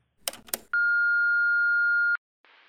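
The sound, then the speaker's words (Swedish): An answering machine beep plays when messages are played back. Two short noisy bursts come first, then a single long, steady, high electronic tone lasts over a second before it stops abruptly. Soft hiss follows. “inget avsnitt av Rivierans quiz är ju komplett utan att man kollar telefonsvaren. Vi ska se om vi har fått något meddelande idag.”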